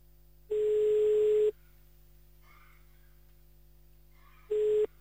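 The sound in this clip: Telephone ringback tones while calling someone back. Two steady, mid-pitched tone bursts are heard, the first lasting about a second and the second shorter, separated by a long silent gap with no talking.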